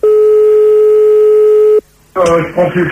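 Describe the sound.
Telephone call tone while calling someone back: one long, steady, loud tone of nearly two seconds cuts off abruptly, then after a brief gap a voice starts talking.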